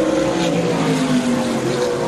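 Race cars roaring around the Mossport racetrack, heard as a dense, continuous engine drone with steady loudness and a slightly wavering tone, no voices over it.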